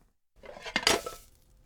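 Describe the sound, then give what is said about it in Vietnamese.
A frying pan is flipped onto a plate to turn out an omelette, making a quick, faint clatter of metal and crockery. Two or three knocks sound close together in a single burst, with quiet before and after. “Một tay giữ chảo, tay kia giữ đĩa, rồi úp chảo thật nhanh để phần trứng tráng sẽ chuyển qua đĩa.”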